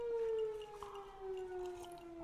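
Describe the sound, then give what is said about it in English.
A siren wails faintly with a steady, sustained tone that slowly falls in pitch across the whole stretch, with no voices over it. “He likes that siren.”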